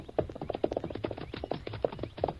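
Hooves clip-clop softly as the horses Silver and Scout move off, a quiet, uneven patter of many light taps with a few firmer strikes.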